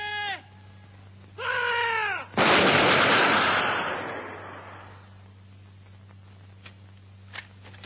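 A massed gunfire volley fired on command erupts as one loud, sharp crack, then its roar trails off over a couple of seconds. Shorter, wavering tonal cries come just before it.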